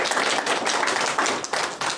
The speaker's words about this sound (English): Go ahead, applaud for them, of course.